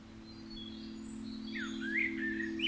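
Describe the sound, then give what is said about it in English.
Spring birdsong rises as a few thin, high chirps and quick trills. The calls enter partway through, faint, over a steady low hum. “I can hear the birds singing and see the sun and feel its warmth.”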